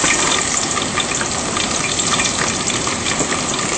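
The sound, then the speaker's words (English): Onion frying in hot oil gives a loud, steady sizzle, a continuous bright crackling hiss that holds level without pause. “Now heated, so I will add my onion to the oil.”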